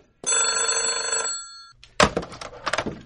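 A telephone rings in one sustained, steady electronic burst lasting about a second and a half, loud and clear, before cutting off.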